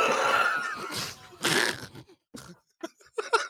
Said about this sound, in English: That was an involuntary snort.